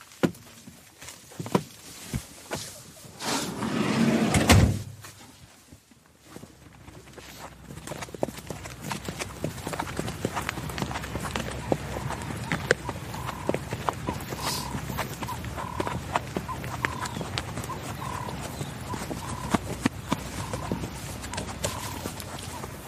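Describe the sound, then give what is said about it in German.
Horses' hooves clip-clop during a guided horseback ride in a steady, soft run of many quiet beats. A louder rustling burst comes near the start. “In ein paar Tagen steht aber unsere Reitsafari in Botswana an, weshalb wir einen Ausritt gebucht haben.”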